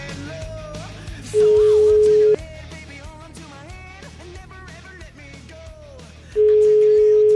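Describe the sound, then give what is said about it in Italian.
Telephone line tones while a call is being placed: two long, loud, steady single-pitch tones, each about a second, with other sounds playing in the gaps between them. “Chiamiamo la Contessa de Blanc dopo tanti mesi alla Zanzara.”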